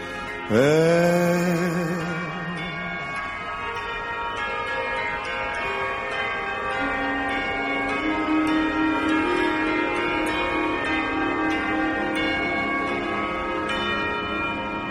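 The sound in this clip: Church bells at Notre-Dame de Paris, heard at the opening of a concert: one loud strike starts a long, rich ringing with layered overtones, and a lower humming tone swells in later as the resonance slowly fades.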